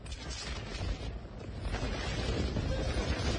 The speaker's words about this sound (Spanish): Ahí se escucha como... El viento que había, ¿no? Claro. El viento hacía flamear una bandera de Argentina apenas terminaba el partido.